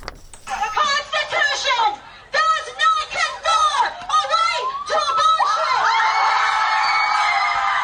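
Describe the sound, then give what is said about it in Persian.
Abortion-rights protesters outside the US Supreme Court shout in rhythmic chanted bursts, with many voices striking together. The chanting then gives way to sustained cheering and whoops. “این صدای معترضانی است که از روز گذشته و پس از لغو قانون تاریخی سقط جنین موسوم به روبی وید در برابر دیوان عالی آمریکا تجمع کردند.”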